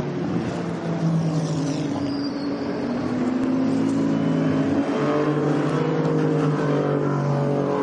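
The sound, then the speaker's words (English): Race car engines roar as the cars accelerate through the Porsche Curves at Le Mans during a three-hour endurance race. The loud, continuous engine noise shifts in pitch as the cars pass, with no talk over it. “As they come through Porsche curves at the moment, good to see they were going back racing.”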